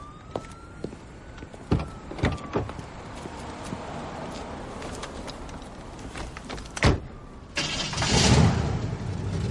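A few car-door thumps sound in a motel parking lot, then a car engine starts and roars up loudly as the vehicle drives off, all over a quiet background.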